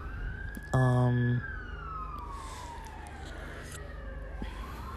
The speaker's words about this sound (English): sorry, sirens.